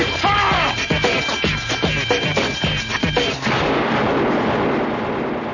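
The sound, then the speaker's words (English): Gunshots ring out as a rapid series of sharp, loud bangs, followed by a steady wash of hiss once the firing stops. “You didn't have to shoot him”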